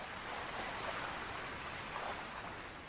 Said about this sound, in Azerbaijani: Arazın gür dalğası.